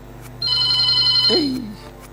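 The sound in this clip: A telephone ringing with an incoming call: a high electronic ring held for about a second, then a short lower sliding tone, over a faint steady hum.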